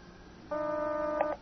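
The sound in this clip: Telephone dialing and call-connecting tones: a steady multi-pitched tone holds for under a second, followed by a couple of short, clipped beeps, with no talk over it.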